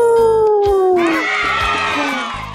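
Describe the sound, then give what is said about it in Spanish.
A wolf howl at a children's summer event: a long, loud, falling howling tone, followed by a dense burst of overlapping high-pitched sound. “¿saben qué animal hace? ¡Au! ¡Es el lobo!”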